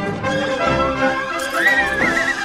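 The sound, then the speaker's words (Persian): A cartoon winged horse, conjured from a black cat, gives a loud, high neigh with a wavering, shaky pitch that rises into a drawn-out whinny, with no talk. “کایوت با یه دستور دیگه گربه سیاه و تبدیل به اسب بالدار میکنه.”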